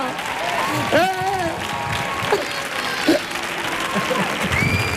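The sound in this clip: Applause from an audience on its feet in a standing ovation at Auditorio Cartuja. Steady, dense clapping and crowd noise run throughout, with a man's voice talking excitedly over it.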